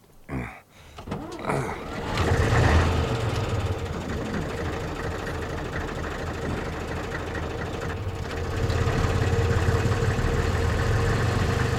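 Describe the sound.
A car engine runs as the car drives off. A few knocks and a short rising whir come first, then a steady mid-pitched hum that grows louder and deeper toward the end.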